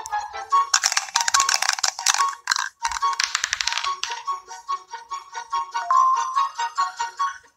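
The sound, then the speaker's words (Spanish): A virtual die rolls in a video version of the goose board game, a bright rattling burst of many rapid clicks and chiming tones that runs for several seconds, then thins into a few separate pulses. “Pulsa la pantalla para tirar el dado.”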